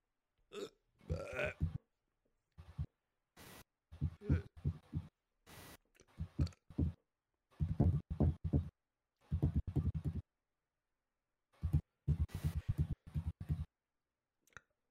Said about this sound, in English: Oh, I got the hiccups.